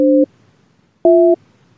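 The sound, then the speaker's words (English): A telephone line tone sounds while a call is being dialed: two short, loud, steady dual-pitch beeps separated by about a second of silence, in a busy-signal pattern. “I can't believe I'm drunk dialing Trumpster God. Here we go.”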